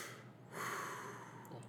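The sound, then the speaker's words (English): A man imitates his stressed three-year-old son taking a deep, calming breath, one soft, breathy draw of air that swells and holds for about a second. “and he takes a deep breath”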